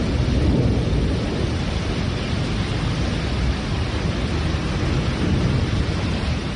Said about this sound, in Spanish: una tormenta que ha entrado en Mallorca y en Menorca dejando lluvias, rayos y truenos